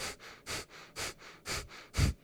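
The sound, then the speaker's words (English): Rapid Breath of Fire pranayama breathing through the nose: evenly spaced, equal inhales and exhales give a steady rhythm of breathy sniffing pulses, stronger and softer bursts alternating, with no talk. “it's called Breath of Fire. Okay. It's an equal inhale and exhale through your nose. So, and it can be quick”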